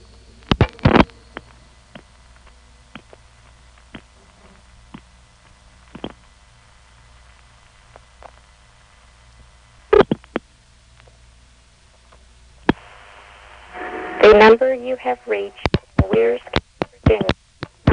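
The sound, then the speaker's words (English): Telephone intercept on a vacant number: a few sharp clicks, then faint soft ticks spaced about two seconds apart, a louder ring-trip click and a brief steady tone, then a recorded voice announcement begins. “This particular office has a strange intercept arrangement on its vacant levels because first there's a series of soft ticks, and then there's a ring trip, and then finally the recording comes on. Here's the same thing from another phone call.”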